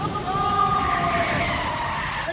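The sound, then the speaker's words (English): Tires screech as a Jeep skids and spins out with its lug nuts working loose. A steady, high squealing whine rides over broad rushing noise for about two seconds. “Jimmy's having trouble keeping control of his Jeep. Andy Lugnut is in a bad fix. Whoa, whoa, whoa, I'm, spinning around.”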